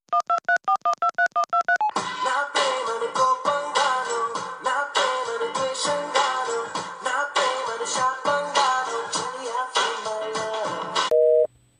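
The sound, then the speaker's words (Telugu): Telephone call being placed on a Vodafone mobile line: a rapid run of short electronic beeps stepping in pitch, then several seconds of tuneful ringback music, ending with a brief steady tone. “వాడికి phone కలిపి నేను మాట్లాడతా.”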